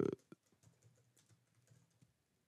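Faint typing on a computer keyboard as a chapter-marker label is entered. It is a soft, irregular patter of key clicks after one brief louder knock at the start.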